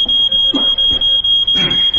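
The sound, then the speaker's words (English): A smoke alarm set off by pipe smoke sounds a loud, shrill high-pitched tone that pulses in rapid, even beeps throughout, with faint low rustling beneath and no talk. “Your pipe set the smoke alarm off. You've got to get up on the chair and press the button now.”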